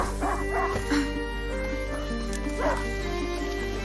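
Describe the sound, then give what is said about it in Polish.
A hunting dog in a video game gives a few short, yapping barks and whines over steady background game sound. “A hunting dog is not supposed to lose its hunter.”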